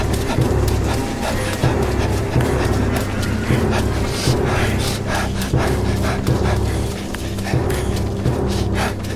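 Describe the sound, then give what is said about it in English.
A giant centipede skitters toward the listener through a tunnel in an audio drama effect: a dense, steady, loud clatter of many rapid clicking, scraping legs that keeps up without pause. “The centipede senses your panic and accelerates. The only thing louder than your panicked breath is the sound of death approaching.”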